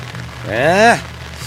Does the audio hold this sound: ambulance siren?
no